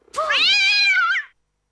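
A cat meows once in a long, drawn-out, loud call with no other sound, its tone rising slightly and then dropping away at the end.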